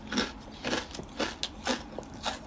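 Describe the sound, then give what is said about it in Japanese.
Crisp crunching of thin-baked, salty salad rice crackers (senbei) being bitten and chewed. A steady series of sharp, brittle cracks comes at a fairly even rhythm with no talk. “薄焼きサラダせんべい食べ終わりました久しぶりに食べたらめっちゃ美味しかった”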